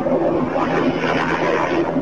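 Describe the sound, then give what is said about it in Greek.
A private Bell helicopter roars loudly as it spins in the air just before crashing. Its engine and rotor make a dense, steady, unbroken noise throughout. “Το μοιραίο ιδιωτικό ελικόπτερο τύπου Bell αρχίζει να περιστρέφεται στον αέρα δευτερόλεπτα πριν συντριβή”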